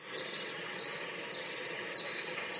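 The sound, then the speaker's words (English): Pipistrellus bat echolocation calls slowed down ten times: five evenly spaced, short, high chirps, each sweeping quickly downward in pitch, over a constant faint hiss. “a different type of bat, Pipistrellus, has calls which sound like this.”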